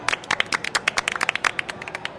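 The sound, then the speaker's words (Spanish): Audience applause for singer Joaquín Sabina after he performs a song, many crisp, separate claps in a fairly regular rhythm, sharp and distinct rather than blended into a roar. “Muy bien, bravo, Joaquín Sabina, un aplauso.”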